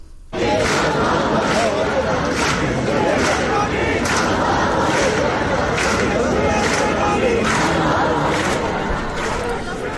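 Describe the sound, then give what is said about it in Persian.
Students at a rally at Polytechnic University chant slogans together, recorded from a distance, a large crowd of voices pulsing in a steady, repeated rhythm throughout. “دانشجویان در دانشگاه پلی‌تکنیک هم تجمع داشتن. این تجمع نسبت به روزهای گذشته کمی وسیع‌تر بوده. همه با هم شعار می‌دادن و حالا صدای اونها رو می‌تونیم بشنویم.”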